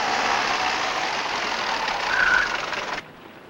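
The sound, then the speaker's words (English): A taxi engine idles as the car pulls up to a two-story stone building. A steady rumble with a broad hiss holds evenly, then cuts off sharply near the end, leaving a much quieter background. “Later, Anne sleeps in the back seat as the taxi pulls up to a two-story stone building.”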